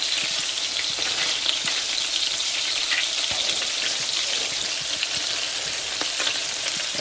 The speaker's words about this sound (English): Okay, so the second side now has thoroughly cooked through and we're still in good shape. And now I'm beginning to flip them onto one of their other sides.